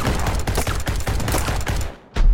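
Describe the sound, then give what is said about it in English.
Gunfire sprayed wildly comes as a dense, rapid run of loud shots that breaks off near the end. After a brief drop, one more heavy blast follows. “That's it! Time to start shooting wildly!”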